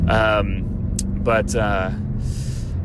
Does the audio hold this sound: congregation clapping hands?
no

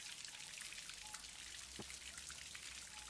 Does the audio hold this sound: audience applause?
no

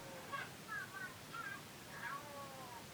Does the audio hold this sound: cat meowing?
yes

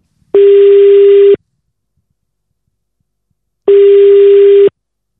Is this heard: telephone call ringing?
yes

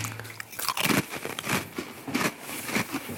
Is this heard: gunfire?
no

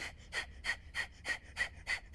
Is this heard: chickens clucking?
no

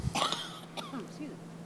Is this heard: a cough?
yes

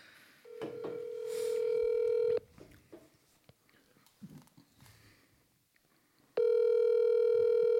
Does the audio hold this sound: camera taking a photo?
no

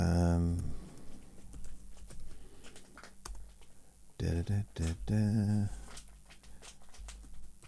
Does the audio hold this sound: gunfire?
no

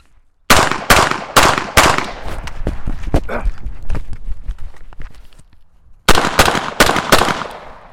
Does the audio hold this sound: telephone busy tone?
no

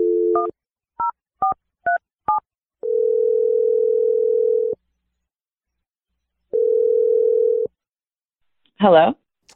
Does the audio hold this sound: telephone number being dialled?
yes

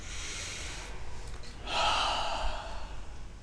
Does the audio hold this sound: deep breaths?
yes

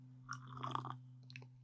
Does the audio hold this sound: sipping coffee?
yes

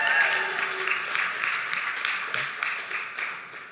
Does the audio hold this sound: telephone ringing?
no

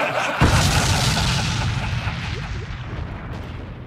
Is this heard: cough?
no

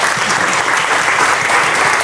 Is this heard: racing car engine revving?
no

